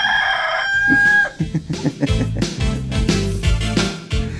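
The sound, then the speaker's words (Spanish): A single rooster crow rings out alone, high and drawn-out for about a second, then gives way to loud rhythmic music with a steady thumping beat. “Ese es el espíritu del gallo que me choreó en Virasol.”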